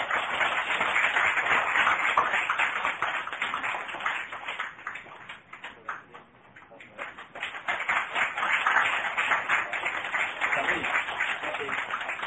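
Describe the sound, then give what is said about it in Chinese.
Audience applause at a church membership welcoming, many hands clapping steadily, dipping briefly midway before swelling again, with voices mixed in. “咱来拍手吧”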